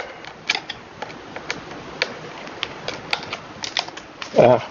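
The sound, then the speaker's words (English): Small dry clicks and ticks of a screw being unscrewed, the second to last of six screws to come out. Many light, irregular taps run throughout, with a louder, fuller burst near the end. “So this is the second to last screw to come out.”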